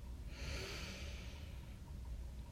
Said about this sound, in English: So now, please take a deep breath in and out. Deep breath in